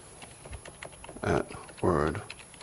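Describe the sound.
Keys clatter on a computer keyboard as an administrator login and password are typed, a quiet run of light, quick clicks broken by two short voiced sounds.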